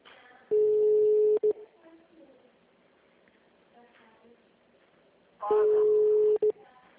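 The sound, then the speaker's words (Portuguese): Telephone ringback tone while a call is placed: two steady, mid-pitched rings of about one second each, separated by several seconds of near silence. “Tô ligando, tá passando na diretoria, mas aí só chama, tá chamando.”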